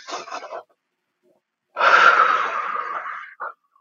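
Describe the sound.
A deep breath: a short airy breath, then a pause of silence, then a long, drawn-out rush of breath noise that tapers off and ends with a brief puff.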